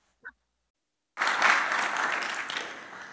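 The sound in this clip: Applause from an audience welcoming a woman up to give a scripture talk one morning. A brief sharp sound comes first, then a second of silence, then the clapping breaks out loudly and holds steady, thinning slightly toward the end.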